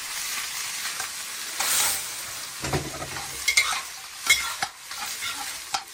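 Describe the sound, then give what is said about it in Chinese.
Cut cattail shoots are stir-fried with dried shrimp, giving irregular scraping and tossing noises over a low sizzle, with a few louder clattering strokes and no talking. “倒入切断的蒲菜， 蒲菜， 对，翻炒三分钟”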